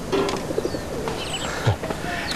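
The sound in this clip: Cooing from a pigeon that has just been treated and recovered from illness. A few soft, low coos rise over a steady background noise.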